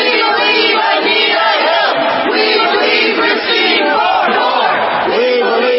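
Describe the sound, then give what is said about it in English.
A loud crowd of demonstrators protesting a Supreme Court nomination shouts and chants continuously, a dense wall of overlapping raised voices with no pauses. “That's the sound of some demonstrators who are protesting Brett Kavanaugh's Supreme Court nomination.”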